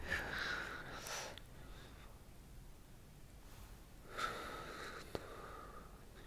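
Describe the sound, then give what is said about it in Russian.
Slow, deep inhales from a person doing a counted breathing exercise: two faint, drawn-out breaths with quiet stretches around them. “Нет, я не могу одновременно говорить и вдыхать, поэтому, сорян, будете слушать, как я вдыхаю.”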